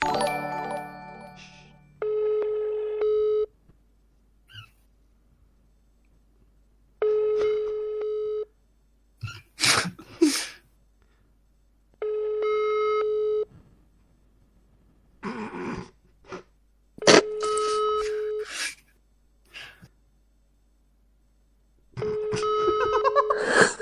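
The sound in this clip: A telephone ringing tone during a phone call, five steady, evenly spaced tone bursts, with short noisy bursts of other sound in some of the gaps.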